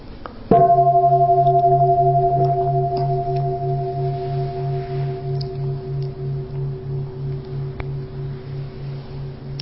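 A temple bell is struck once during meditation, then rings on in a long sustained hum with slow, regular pulsing beats that gradually fade over about nine seconds.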